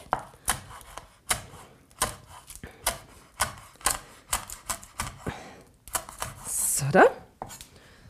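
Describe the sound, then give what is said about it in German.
A knife chops dried seaweed on a cutting board for a tuna-free fish-style spread, with many sharp, crisp knocks falling in a steady, even rhythm and a denser flurry of cuts near the end. “Gut, jetzt haben wir das vor uns liegen. Jetzt hacken wir das auch nochmal durch. Ich mag es nämlich nicht, wenn man da auf so ein großes Stück beißt.”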